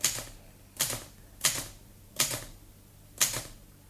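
Typewriter keys clack five times at a slow, uneven beginner's pace. Each strike is sharp and crisp with a brief metallic ring, and the pauses between them are quiet.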